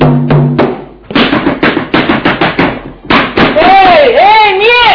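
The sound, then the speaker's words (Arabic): Heavy knocking and pounding on a door in a radio drama, delivered in several quick bursts of loud thuds with short pauses between. A wavering raised voice rises over the last blows. “مين اللي هيخبط؟ اكسر الباب يا ولا انت وهو.”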